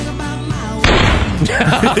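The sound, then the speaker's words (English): A gunshot rings out as a single sharp, loud bang that cuts in abruptly, followed by a burst of noisy, crackling sound. “Ow! What'd you shoot me for, man? I'm shooting this guy.”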